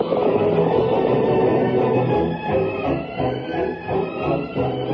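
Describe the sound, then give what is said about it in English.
Galloping hoofbeats of the great horse Silver, a radio drama sound effect, pound in a steady, loud rhythm over a dense sustained background, with no voices. “From out of the past come the thundering hoofbeats of the great horse Silver.”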